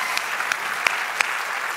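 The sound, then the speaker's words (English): Audience applause in a church service, a dense steady wash of many hands clapping with a few sharper individual claps standing out, fairly loud throughout. “Come on, give them one more round of applause.”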